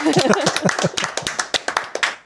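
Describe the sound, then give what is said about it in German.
Hand clapping from a small group at an event in Munich, sharp and distinct claps in an uneven rhythm, with voices audible at the start before the claps thin out. “Ja, klatscht ihr uns selber.”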